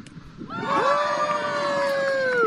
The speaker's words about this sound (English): this is the sound of St. John residents celebrating a giant Christmas tree lighting last year.